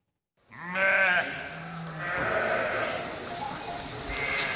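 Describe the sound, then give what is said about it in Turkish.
A newborn merino lamb at a livestock farm bleats, a wavering nasal cry followed by a few shorter, lower bleats over steady background noise. “Balıkesir'deki bir hayvancılık işletmesinde dünyaya gelen merinos cinsi kuzunun aynı anda iki annesi oldu.”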